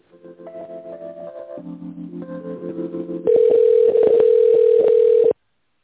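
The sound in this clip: Telephone line tones play while a call is being connected to a specialist: a short run of stepped tones, then a loud, steady tone broken by several clicks, ending abruptly.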